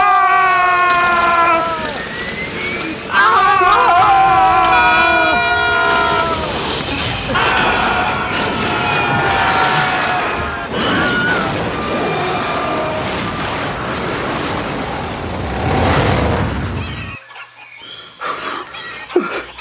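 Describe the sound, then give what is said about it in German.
A propeller plane crashes with its propellers on fire: a loud, continuous engine roar carries whining tones that slide down in pitch, grows dense and noisy, then cuts off abruptly and leaves a few short bursts. “ich glaube, die, die Propeller stehen in Flammen. Oh nein, ah. wir stürzen ab!”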